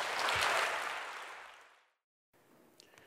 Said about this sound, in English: I want us to give him a very warm, mostly Texan welcome this morning. Let's give him a hand.